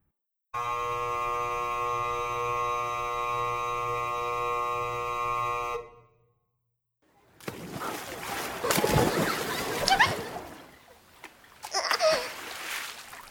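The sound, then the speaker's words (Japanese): Water splashed onto a person at a pool, a burst of rough, sloshing noise with several louder surges, heard after a steady buzzing tone and a short pause. “今あんたが水かけたせいでメイク崩れたと思うから”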